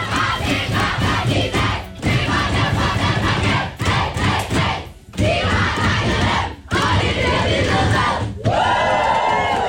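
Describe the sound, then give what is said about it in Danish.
Danish women's national football team celebrating in the locker room after a win over Serbia: loud group shouting, whooping and cheering that fills the whole clip, with a few short dips between bursts. “Lyden fra omklædningsrummet hos de danske fodboldskvinder i går.”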